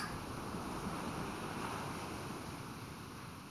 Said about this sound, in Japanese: では窓を開けていきますね。心地よい波の音がはっきりと聞こえるはずです。